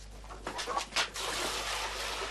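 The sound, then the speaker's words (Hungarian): Fresh water is poured out for chickens, with a brief burst of splashing and trickling followed by a steady, soft rushing flow. The sound is faint overall. “Friss vizet kapnak a csirkék dósáéknál.”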